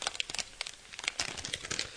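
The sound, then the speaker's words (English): Drink mix pouches are being torn open, with quiet, busy crinkling and crackling of packaging in many short, irregular bursts. “So I'm tearing open the pouches right now, and they don't make it easy, do they?”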